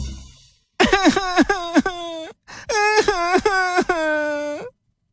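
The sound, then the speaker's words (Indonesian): A voice imitates a child crying: many wavering, wailing sobs in two bursts separated by a brief pause, loud and alone before silence. “Jadi dia mulai menangis.”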